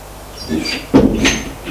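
A door opening after a knock, leading into a small, cupboard-like room. A short thud at about the midpoint is followed by a brief creak or scrape, then a light rustle. The sounds are moderately loud, with no voices.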